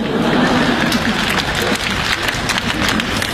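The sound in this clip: An audience applauds at a live comedy stage performance, with dense, steady clapping that stays loud for the whole stretch.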